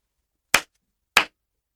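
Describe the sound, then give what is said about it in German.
Two sharp hand claps marking the syllables of a German word in a pronunciation exercise, evenly spaced and alone against silence. “Sprechen Sie nach und klatschen Sie die Silben.”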